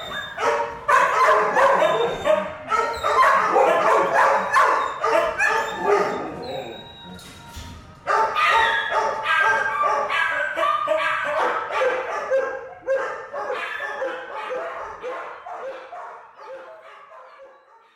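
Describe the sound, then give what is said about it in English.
Many dogs bark, yelp and whimper together in a dense, loud, distraught chorus of mixed pitches. The din dips briefly about midway, then resumes and slowly fades. “The doggies win. Their voices, so loud, so distraught, and in such numbers, coerce me to listen.”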